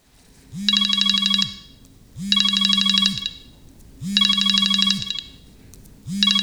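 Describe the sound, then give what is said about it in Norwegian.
Telephone ringing tone while calling the police: a buzzy, trilling ring repeats in four evenly spaced bursts just under a second each, the last cut short, loud and alone. “Dere må ringe politiet.”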